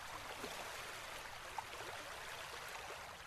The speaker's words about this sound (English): As you drift now to sleep, lulled by the low thunder of the waves